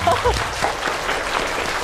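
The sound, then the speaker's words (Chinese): Applause from a class of students for two classmates' acting performance: a steady, dense patter of many hands clapping, with voices briefly audible at the start. “他们俩的表演我们还是给他们俩掌声吧，好吗？”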